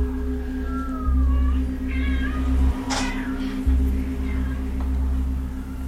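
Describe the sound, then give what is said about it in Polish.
A house cat meows at a window, a few short, rising-and-falling meows over a steady low electrical hum, with no talking during the calls. “Życie nam wchodzi przez okno. Nie da spokoju. Kot. No, muszę puścić.”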